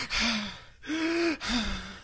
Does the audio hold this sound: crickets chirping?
no